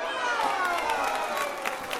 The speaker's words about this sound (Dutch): Applaus voor jullie bibliotheek op school, lieve kinderen van de Victor School.